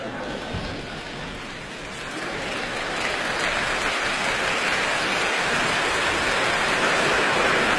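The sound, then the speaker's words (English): Audience applause after a Bach presto at a classical concert: a dense, rain-like hiss of many hands that swells after about two seconds and then holds at a steady, fairly loud level to the end. “Tremendous applause that they gave her for that presto by Bach.”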